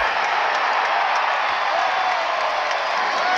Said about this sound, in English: Okay, hold on. Yeah, that was just from the crowd.